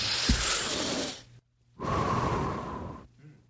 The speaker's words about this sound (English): I'm going to take a deep breath.